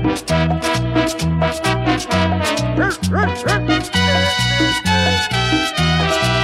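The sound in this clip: Dog yips and barks within a cumbia-style song about a flea and a dog, short bouncing cries breaking out over a steady, repeating bass and rhythm section in the middle of the track.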